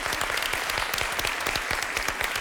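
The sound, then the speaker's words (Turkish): Applause at a quiz game, a dense, steady patter of many hands clapping without a break through the whole clip, loud and even, with no voices over it. “Yaklaştın, alkış söyleyeceğim.”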